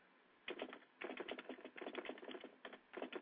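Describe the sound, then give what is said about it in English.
Typing on a computer keyboard, quick bursts of soft key clicks separated by short pauses, quiet and alone without voices. “As I type and talk at the same time.”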